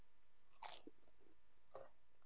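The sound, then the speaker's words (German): Faint crunching bites of Körner Balance whole-grain toast with sunflower seeds and linseed, a few crisp crunches with brief chewing between them against near silence. “Also das Brot, was ich gerade esse, das Toastbrot ist von Körner Balance. Mit Vollkorn, Sonnenblumenkern und Leinsamen.”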